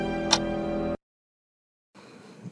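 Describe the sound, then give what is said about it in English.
An alarm going off: a dense, buzzing tonal sound holds for about a second, then cuts off abruptly into silence before faint noise returns. “What is that? That's my alarm.”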